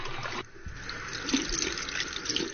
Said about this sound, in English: Let's wait to see if he washes his hands. Let's see if he washes his hands, all right? Very important.